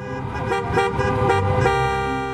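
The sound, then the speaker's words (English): Car horns honk in a giant protest traffic jam in Michigan against stay-at-home orders, several overlapping horn tones blaring together in sustained, brassy bursts over a low vehicle rumble. “some in Michigan are having a hard time with the stay-at-home orders. People have expressed anger at the government, first by creating a giant traffic jam,”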